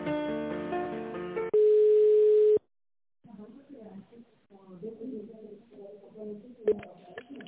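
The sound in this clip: Telephone line tone heard while a call is transferred: a sustained, steady electronic tone lasting about a second, with other muffled sounds before and after it.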